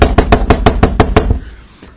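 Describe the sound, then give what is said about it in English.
Knocking on a door: a quick, steady run of many firm raps, loud and evenly spaced, which then stops and gives way to quiet. “So then Porky knocked on the door.”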